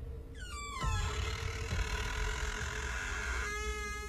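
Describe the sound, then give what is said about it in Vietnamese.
A door creaking open, a squealing creak that slides down in pitch, followed by a dull knock and a steady tonal ring that fades near the end. “Lại thêm tiếng mở cửa vang lên.”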